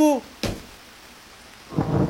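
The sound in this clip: A thunderstorm with heavy rain: a sharp crack of thunder, then a quieter stretch before a dense, hissing roar of rain swells up near the end. A brief voice sounds at the very start.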